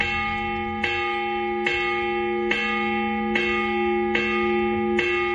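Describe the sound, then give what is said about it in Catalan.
A church bell tolls in a regular, rather high-pitched pattern, with strikes falling evenly about every eight-tenths of a second, each one ringing on into the next, with no voices. “jo ara et posaré un toc de campana i tu m'hauràs de dir què vol dir aquest toc de campana.”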